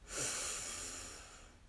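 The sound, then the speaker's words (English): A deep breath in during a guided breathing exercise, one soft, airy inhale that swells quickly and then slowly thins out over more than a second. “And let's take three deep breaths in. We'll breathe in, hold at the top, and release with a loud, audible sigh. So breathe in”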